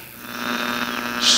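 Radio static while tuning a radio by its knob: a steady buzzing hum layered with hiss, ending in a brighter burst of hissing noise.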